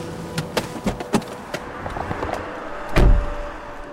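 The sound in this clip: Car door as the driver parks and gets out: a string of small clicks and rattles, then a louder low thump of the door near the end.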